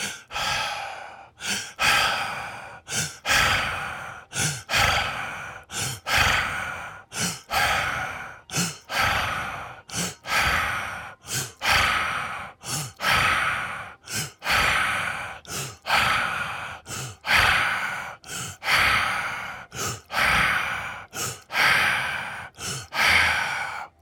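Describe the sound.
Slow breathing exhales during a guided breathing exercise come as a long, steady series of breathy bursts in an even rhythm, each rising and falling back to brief quiet, with no talk.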